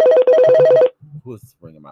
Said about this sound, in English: Who is ringing my goddamn doorbell while I'm on my fucking podcast?